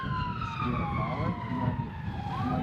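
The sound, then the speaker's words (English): An emergency vehicle siren wails as a continuous, loud tone with several layered harmonics, gliding slowly downward in pitch before turning upward again near the end, over a low rumbling background. “With the siren and everything? That's the siren, that's them.”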